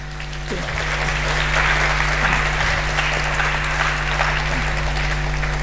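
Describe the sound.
Sustained audience applause welcomes a speaker to a talk on chiptunes: a dense, steady wash of many hands clapping that holds at an even level throughout, with no talk over it.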